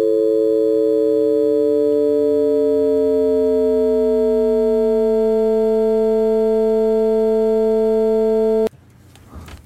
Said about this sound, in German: also aus der Unterbrechung wird langsam ein Ton, wenn ich die Frequenz langsam erhöhe.